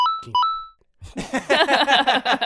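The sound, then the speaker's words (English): Two short electronic beeps sound one right after the other, clear steady tones, followed by a brief silence and then a person talking. “so to everybody at home, they have no idea what you just said because it was just two beeps one after another”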